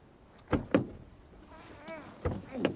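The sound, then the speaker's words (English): A car door opens with two pairs of sharp clicks and clunks, separated by a quieter stretch of faint movement and rustle, all fairly soft. “pops open the car door and gets to his feet.”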